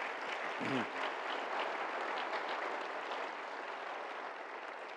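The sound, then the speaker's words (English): Applause from an audience welcoming speaker Os Guinness at a talk on religious freedom: dense, continuous clapping that holds at an even level from start to finish. “Join me again in welcoming Oz Guinness.”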